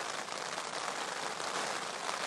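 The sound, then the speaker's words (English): Rain falls in a steady, even hiss of many drops, moderately loud and unbroken from start to end, with no voices. “But a second ago, it was raining quite loud,”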